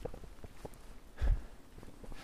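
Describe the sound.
Footsteps walking through a forest at night: a few soft, muffled steps with one heavier thud near the middle, no talk.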